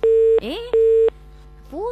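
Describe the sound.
Telephone busy signal after a call is cut off: two steady, mid-pitched beeps of equal length with a voice-like rising sound between them and another after, loud and clear.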